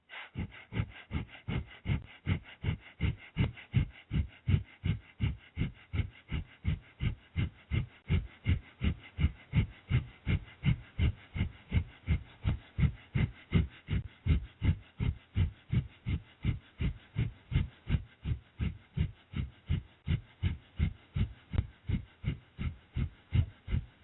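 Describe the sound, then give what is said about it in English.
Fast, shallow breath-of-fire yoga breathing: many quick, evenly paced huffs of air, about two to three per second, keep a steady rhythm throughout. No one talks. “Remember that the breath is not taken in very deep, and the pace is fast, about 3 cycles per second. Breath of fire sounds like this.”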